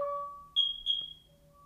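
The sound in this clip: A fire alarm sounding during a test gives out faint electronic tones: a lower steady tone, then short, high-pitched beeps in two quick bursts.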